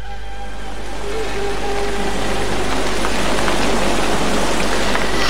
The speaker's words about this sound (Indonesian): Hujan sudah turun.